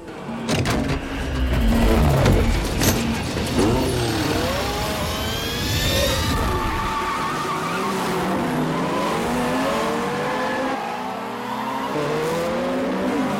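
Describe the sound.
A racing car, the cachimóvil, speeding in a race: loud continuous engine roar with squealing tires and skidding, its tones wavering up and down throughout.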